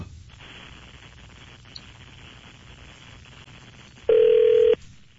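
A telephone line is dialed for a radio call: faint line hiss, then a single loud, steady tone lasting about half a second near the end.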